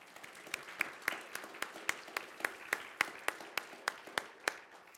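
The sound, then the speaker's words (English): Audience applause at a board meeting welcomes six new members: a soft wash of clapping with evenly spaced, sharper claps standing out in a steady rhythm, fairly quiet overall. “Let's give them a hand.”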